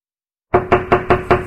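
Knocking on a door: six firm, evenly spaced raps in quick succession after a moment of silence, each with a hollow, resonant thud.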